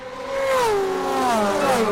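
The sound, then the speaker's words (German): A racing car laps the Le Mans circuit during a 24-hour race, its loud whining engine note sliding down in pitch as it passes, alone without voices. “Ja, hier fahren Autos immer wieder im Kreis, 24 Stunden lang. Und es gibt Menschen, die finden das unglaublich spannend. Zum Beispiel auf der Rennstrecke Le Mans.”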